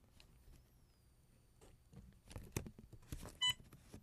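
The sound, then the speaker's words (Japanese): A single short, high beep sounds from a banknote-reading machine after it reads a 1000-yen note, preceded by faint clicks and rustles of the note being set and the read button pressed. “今ピッという音がしましたね。これで1回ですので1000円です。”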